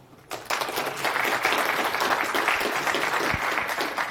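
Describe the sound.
A conference audience breaks into applause to welcome a speaker. The dense, steady clapping starts abruptly after a brief quiet moment and continues strongly to the end.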